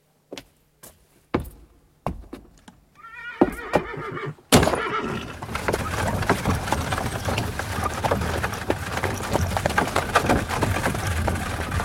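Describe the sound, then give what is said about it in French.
Horses neighing by a post carriage drawn by two sturdy post horses. A few sharp knocks and clip-clops come first, then a whinny breaks out and gives way to steady rumbling, rattling noise. “Voici votre voiture, Excellence, avec 2 solides chevaux de poste.”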